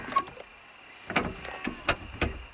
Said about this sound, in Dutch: je hoort hier het geluid van een soft close deur. Dat is een techniek die in moderne auto's verstopt zit, zodat je deur niet beschadigt als je er weer een enorme slinger aan geeft